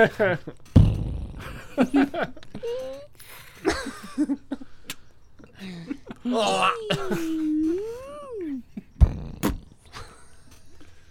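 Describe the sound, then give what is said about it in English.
Fart noises, a few irregular low bursts, mixed with moaning and wailing vocal sounds with sliding pitch, fairly loud against a quiet background. “people might actually pay good money for that. Farts? ASMR farts? ASMR farts noises or whatever.”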